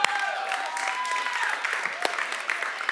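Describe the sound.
A lone audience member at a sermon cheers with a high, gliding whoop, followed by a few sharp claps. The sound is fairly faint over a quiet background.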